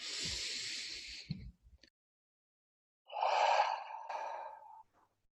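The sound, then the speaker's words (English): Slow, deep breathing during a guided meditation: two long, breathy sounds separated by a quiet pause, the second fuller and carrying a soft sighing tone, with no speech. “And now taking a deep breath in.”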